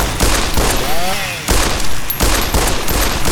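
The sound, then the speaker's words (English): Rapid video game gunfire as many enemy fighters fire on the player's character, who is taking heavy damage. Dense, loud bursts of shots run almost continuously, with two brief breaks partway through. “Taking a ton of damage, but man, now they're all shooting at me.”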